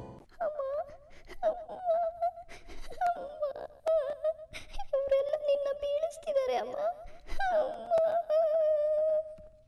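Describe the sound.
A little girl crying in long, sustained high wails broken by short sobbing catches, loud and nearly continuous.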